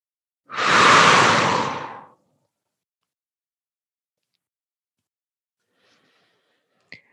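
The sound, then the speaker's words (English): A sharp exhale ending a guided breathing exercise: one loud, breathy rush of air lasting about a second and a half, then silence broken only by a faint click near the end. “One more big inhale nice, clear, sharp inhale and a nice, sharp exhale to release everything that we just did.”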